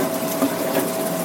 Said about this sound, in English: That is the can opener.